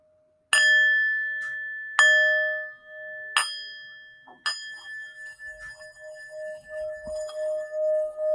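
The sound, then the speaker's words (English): Singing bowls are struck four times during a meditation. Each strike gives a bright metallic ring that sustains and overlaps the next, and the final tone lingers with a slow wavering pulse, with no voices. “stay focused on my voice and the singing bowls.”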